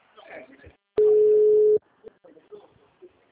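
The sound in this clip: A steady telephone dial tone sounds for just under a second. It is a flat, even, mid-pitched hum with a sharp start and stop, set between stretches of people talking.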